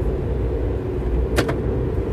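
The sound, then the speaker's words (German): A car glove compartment opens by voice command with a brief double click-whir. It sounds once, over a steady low interior rumble, with no talking. “Das Thema Sprachsteuerung? Handschuhfach öffnen.”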